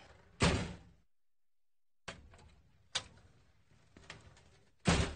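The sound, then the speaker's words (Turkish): A door opens during a radio play scene at a large family house, giving several separate thuds and knocks with short clattering tails and near-silent gaps between them. “Aç kapıyı kızım, gir içeri.”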